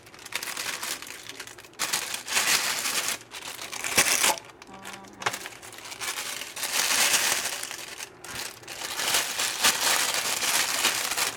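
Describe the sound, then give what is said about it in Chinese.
Crinkling plastic bag as a chicken drumstick is pushed inside, a long run of irregular crackling and rustling bursts with brief pauses, moderately loud and with no talk. “你就准备一个塑胶袋也 OK。那你就把一个鸡腿放进去”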